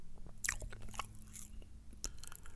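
Crunchy bites into buffalo cauliflower coated in El Yucateco hot sauce: a few sharp, crisp crunches with softer chewing between them, fairly quiet and without talk.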